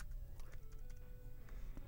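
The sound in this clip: Faint typing on a computer keyboard gives a few soft, irregular clicks over a low background hum. One voice speaks a single brief word.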